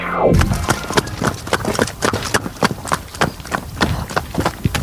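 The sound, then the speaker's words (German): A pony runs on a riding farm, its hooves striking the ground in many quick, evenly spaced clip-clop beats. The loud hoofbeats keep a steady, fast rhythm throughout. “Hörst du, in welcher Gangart unser Ronny-Pony gerade läuft?”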